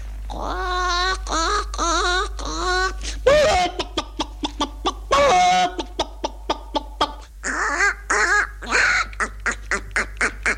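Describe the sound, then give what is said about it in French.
Voice imitating a hen clucking: a few drawn-out squawking calls, then a long run of short, rhythmic clucks in quick succession, fairly loud and alone with no other talk. “Madame de Rézy qui me demandait toujours « Faites-moi une poule, allez-y !”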